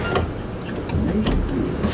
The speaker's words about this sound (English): On a rainy morning, I grab the 66 bus.